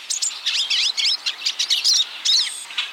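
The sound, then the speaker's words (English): Hungry pine siskins chatter at a thistle feeder: many quick, high, buzzy chirps and twitters in rapid, uneven bursts, bright and fairly loud, with no voices. “Hear that? It's the chatter of hungry pine siskins at a thistle feeder.”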